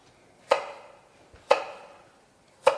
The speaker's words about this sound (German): Das schneiden wir hier einfach in Streifen.